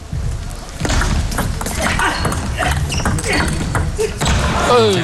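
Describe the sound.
Table tennis ball clicks during a serve and rally in the fourth game of a professional match: a few light, sharp taps sit under continuous commentary.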